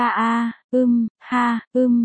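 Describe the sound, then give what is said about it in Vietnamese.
Two men moaning in a quiet room: four drawn-out, low voiced moans of steady pitch, each lasting about half a second or less and separated by brief silences. “Trong căn phòng tĩnh lặng chợt âm vang tiếng rên của hai người nam nhân”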